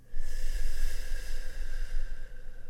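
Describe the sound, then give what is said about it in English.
Slow, steady breathing in and out during a guided breathing exercise, a continuous soft breathy rush of air with faint dips between breaths. “A couple more breaths for me, yeah? In. Well done. And out.”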